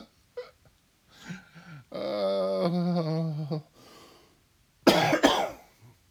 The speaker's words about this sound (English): As I choke up, thinking about it. Excuse me. There you go. Live coughing.